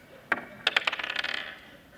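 Dice roll across a table during a tabletop role-playing game, a sharp first hit followed by a quick run of bright rattling clicks as they bounce, then fading to quiet.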